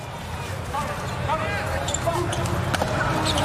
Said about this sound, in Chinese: 又换了一个八号布拉奇科的发球，大力跳发